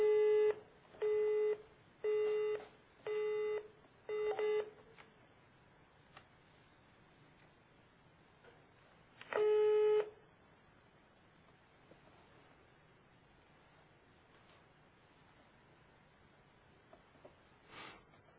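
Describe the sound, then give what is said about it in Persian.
Telephone call tones while ringing a company: five short, evenly spaced tone bursts, then a pause before a single longer tone, over faint background hiss with no talk. “اما داریم با شرکتی کردن تماس میگیریم که گفتن هماهنگ میخوان بکنن بعد از 10 دقیقه، ببینیم به کجا میرسه کار. زنگ خورد ولی بعد نشدن،”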